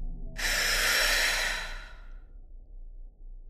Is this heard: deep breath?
yes